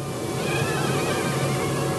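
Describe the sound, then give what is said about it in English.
Mosquitoes inside a box give off a steady, even whine that holds at a constant level without a break, with no voices over it. “The larvae eat other mosquito larvae, so this is actually a beneficial kind of mosquito. I stick my microphone into the box, and that spine-tingling whine immediately pierces my ears.”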